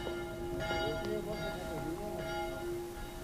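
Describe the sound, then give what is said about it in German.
A small bell rings on a village piazza in Meolo, Italy, giving a few bright strikes over a sustained, humming tone, fairly faint against a soft background. “Diese kleine Glocke hörte ich, als ich über die Piazza in Meolo ging, hinüber zum Albergo, dem einzigen Gasthaus in Meolo.”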